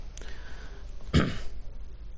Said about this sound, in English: my cough is a little bit better, but I still sometimes have to clear my throat from the acute bronchitis that I had